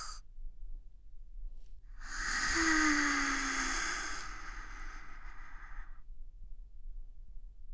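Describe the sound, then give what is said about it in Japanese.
One slow, deep breath is drawn and released as a long airy whoosh. It swells in the middle and then fades out over several seconds, alone against a faint low hum. “そのまま、ゆっくり深呼吸しよう。”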